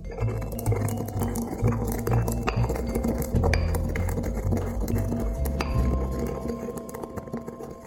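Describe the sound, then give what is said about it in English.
Mixed peppercorns ground by hand in a mortar and pestle, giving a dense, continuous run of gritty scraping, knocking and clinking as the pestle works the hard corns. “I really love grinding pepper by hand in a mortar and pestle.”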